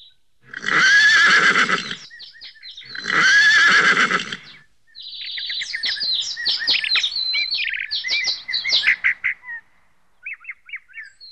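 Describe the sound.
A horse neighs twice in loud, long, quavering whinnies. A busy run of bird chirps and twitters follows and thins out into a few short calls.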